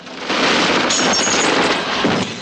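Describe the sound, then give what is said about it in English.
Heavy gunfire and grenade explosions hitting water near a train on a bridge. A short quiet opening breaks into a sudden loud fusillade of shots and blasts that stays intense to the end. “Grenades explode as they hit the water. Marankov looks out of the train. Black-clad figures continue firing. One hurls a grenade.”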